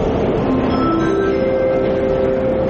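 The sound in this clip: Steady rumbling hum of a metro train in a Yerevan metro station, with a sustained tonal whine held throughout at an even, loud level.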